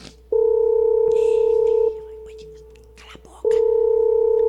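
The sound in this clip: Telephone ringback tone as a call is placed: a loud, steady, even-pitched tone holds for about a second and a half, breaks off into a pause, then sounds again to the end.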